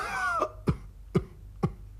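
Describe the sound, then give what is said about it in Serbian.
A voice imitates five or six scrawny ducks coughing in a clearing: after a brief vocal sound come three short, dry coughs at an even pace. “čuo je neko kašljucanje i vratio se da vidi šta je kad tamo na jednoj čistini sedi pet ili šest kržljavih pataka i kašljuli kašlju.”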